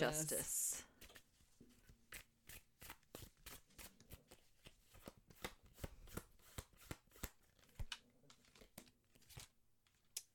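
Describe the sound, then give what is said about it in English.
Tarot cards drawn and handled from a deck make many crisp papery flicks and snaps in an uneven rhythm, with a denser rush of shuffling at the very start. “So we'll draw cards and then ponder them for a long moment.”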